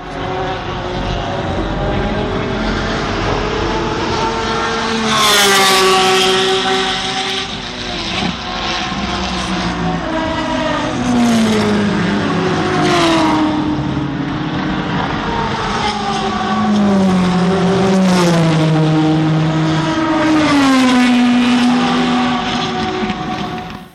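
Race car engines at a motor racing weekend at Sebring, a loud, continuous whining roar whose pitch rises and falls as cars pass, with overlapping engine tones throughout.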